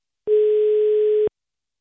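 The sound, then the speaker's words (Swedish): A telephone ringback tone, heard while calling a press secretary: one steady, even, mid-pitched beep about a second long, heard alone between silences. “Jag ringer upp Sverigedemokraternas presssekreterare Erik Murén.”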